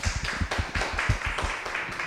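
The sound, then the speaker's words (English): An audience at a talk applauds the speaker, giving a faint, steady patter of many quick claps without any voices. “Let us give Jeanette another round of applause.”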